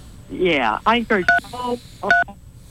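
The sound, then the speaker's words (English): Telephone dial pad keys being pressed during a call, giving two short dual-pitched keypad beeps that cut in among a voice talking. “You're hitting your dial pad.”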